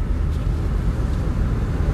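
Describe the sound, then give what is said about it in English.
Steady low engine and road rumble from a car being driven, a continuous dull drone with no voices or distinct events. “I'm just going to kind of talk while I drive.”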